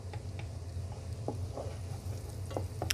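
Garlic frying in butter in a pan gives a steady sizzle, with a few soft scraping and tapping sounds from stirring scattered through it.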